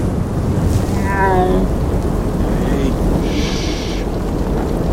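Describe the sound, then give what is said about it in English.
A thunderstorm with heavy rain: a loud, continuous roar of falling rain over deep rumbling thunder that holds steady throughout. “Get ready! The storm will be over soon!”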